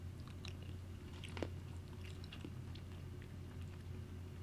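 Faint chewing and biting into a pepper: a few soft, moist crunches and clicks over a low, steady background hum.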